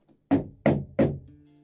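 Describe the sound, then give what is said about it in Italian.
Three loud knocks hit a farmhouse door in quick, evenly spaced succession, each a dull thud that trails off briefly before the next, with a quiet pause after the last. “Prima che lei potesse aggiungere qualcosa, tre colpi totalmente inaspettati irruppero sulla porta del casale.”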